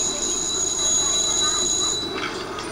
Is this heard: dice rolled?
no